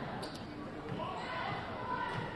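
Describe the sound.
A basketball bounces on the court during a women's basketball game, its dull thuds faint beneath crowd noise and a commentator's voice.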